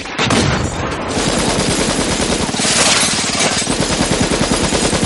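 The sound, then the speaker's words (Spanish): Loud, sustained automatic gunfire from The Matrix as Agent Smith advances while shooting, a dense, unbroken stream of rapid shots with no talking. “Smith se acerca disparando.”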